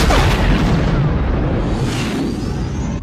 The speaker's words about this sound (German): Was ist passiert? Er hat den Frachter gesprengt.